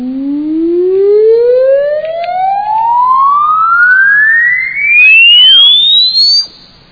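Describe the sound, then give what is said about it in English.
An exponential sine sweep test tone glides steadily upward from a low hum to a high whistle over about six seconds, loud and alone with faint harmonics, then cuts off. “the frequency is changing, and is not changing linearly, is changing exponentially. This is an exponential curve. Let me listen to it.”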